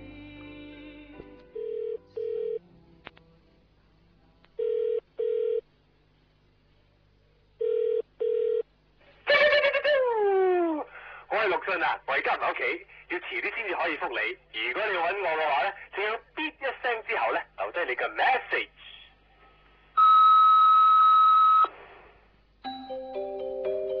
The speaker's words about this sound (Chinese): 于是乎我利用 redial 这个掣。